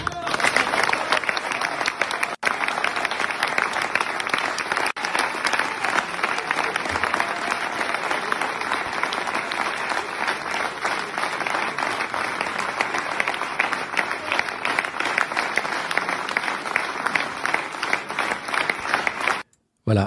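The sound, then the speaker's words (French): Dense applause from a large crowd cheering former French president François Hollande at a Socialist Party event for the European elections, steady and loud for about nineteen seconds before stopping abruptly. “un monde fou pour acclamer euh, l'ancien président François Hollande sur les élections européennes.”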